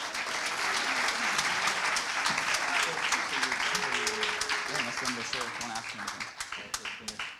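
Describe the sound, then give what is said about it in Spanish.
Church audience applauding, dense sustained clapping from many hands that fades gradually toward the end, with voices mixed in under the applause. “Un aplauso fuerte, amen.”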